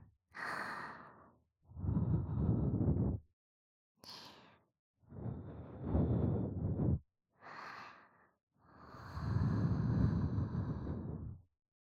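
Soft breaths blown toward the listener, a series of quiet, airy puffs and exhalations with pauses between them, some thin and hissy, others fuller and breathier, with no talking.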